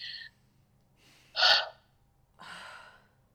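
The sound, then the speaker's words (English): A deep breath and a sigh during a guided emotional-release tapping exercise: a brief breathy sound, then a sharp, loud intake of breath, and finally a long, softer sighing exhale, with no talk. “Big breath, big sigh.”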